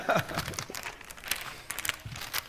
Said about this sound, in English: Let me just save this for later. I'll fold this back up right here.